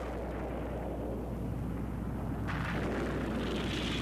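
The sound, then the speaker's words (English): A nuclear blast devastating Washington roars as one loud, continuous low rumble throughout, with a brighter hissing layer joining partway through. “Outside, a blinding nuclear blast devastates Washington.”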